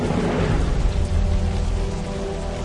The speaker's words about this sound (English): the sky became black with clouds and wind, and there was a heavy rain.